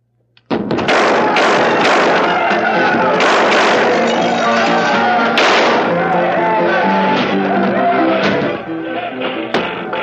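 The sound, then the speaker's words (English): A tavern brawl in a radio drama: loud, dense crashing, banging and thumping that continues without a break, with voices mixed into the din, easing slightly near the end. “That's quite a brawl. A convenient brawl. Oh? Bugs and Jip started it, so no one will hear the shots upstairs.”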